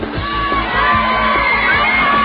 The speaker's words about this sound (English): Hundreds of fans lined Jackson Street and screamed as the singer returned to the